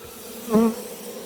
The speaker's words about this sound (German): Dadurch beruhige ich die Bienen ein bisschen. Also ich finde das jetzt nicht so beruhigend. Ja, die ist nur ein bisschen aufgeflogen.